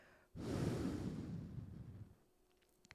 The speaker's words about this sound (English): Palms together, breathe out and bring your hands to the center of your chest.